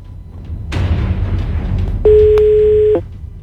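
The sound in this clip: A ringback tone sounds on an outgoing telephone call, a single steady mid-pitched ring lasting about a second. It rises out of a low, constant hiss of line noise and stops abruptly.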